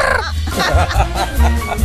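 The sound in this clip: A human voice imitates a parrot with a few short, squawking, bird-like calls. The calls come in loud, quick bursts, and nothing else is heard between them.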